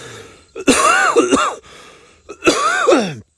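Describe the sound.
Coughing and harsh throat clearing from someone with something stuck in the throat during a morning coffee chat. Two loud, rough bursts, each made of several hacking pushes with groaning vocal tone, are separated by a quiet pause.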